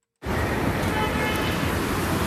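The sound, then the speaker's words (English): Traffic flows fairly smoothly on Portage Avenue, a steady, even wash of road noise that starts abruptly and holds at a constant level. “soothing sounds, right? That's traffic running smoothly or fairly smoothly on Portage Avenue just a few minutes ago.”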